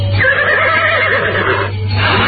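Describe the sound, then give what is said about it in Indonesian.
A horse neighs in a stable, one loud, sustained whinny with a wavering, high-pitched tone that breaks off near the end, heard over a steady low hum. “Aku pilihkan seekor kuda yang cakap dan gagah.”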